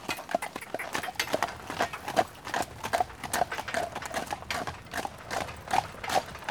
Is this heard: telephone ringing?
no